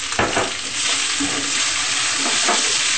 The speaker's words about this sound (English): The tofu is becoming golden brown. It's looking lovely.